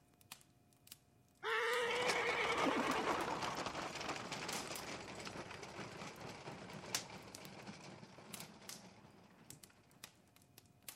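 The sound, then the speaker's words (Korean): Wheels of a royal horse-drawn carriage roll down a street, a steady rumbling clatter that starts abruptly and gradually fades over several seconds, with scattered faint clicks. “왕의 부러운 마차 바퀴가 거리를 굴러갈 때 홈즈가 덧붙여 말했다.”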